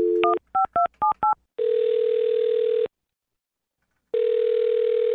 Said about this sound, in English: All right, I'm going to dial her number right now, okay?